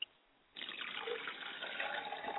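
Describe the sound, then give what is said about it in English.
Liquid poured out as a libation to a father's spirit: after a short quiet moment, a steady splashing stream begins and runs on without a break to the end. “you should have reminded me I didn't pour my libation, and I like to pour libation to my Father's Spirit and say Ashe.”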